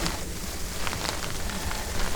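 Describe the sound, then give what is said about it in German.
Hail blowing sideways in a strong storm, heard from under a shelter: a dense, continuous hiss of pelting ice with scattered sharper impacts, loud and even throughout, with no voices. “hier geht es ziemlich ab. Hier kommt der Hagel quer. Mit ein bisschen Glück werden wir hier nicht zu sehr nass.”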